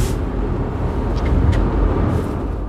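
Steady road rumble from a car driving over a newly laid road, a continuous low roar with no break and no voices.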